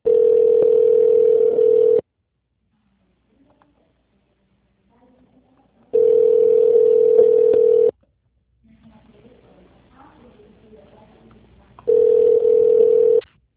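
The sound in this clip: Telephone ringback tone as a call connects: two steady, buzzy tone bursts of about two seconds each and the start of a third, separated by long quiet gaps with faint background noise.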